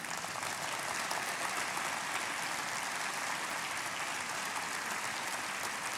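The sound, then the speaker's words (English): An audience applauds to welcome global partners at a worship service: continuous, even clapping, moderately soft, holding at a steady level for six seconds without a break. “I'd like to invite all of our global partners that are here to stand up so the congregation can see you. Can we welcome them this morning?”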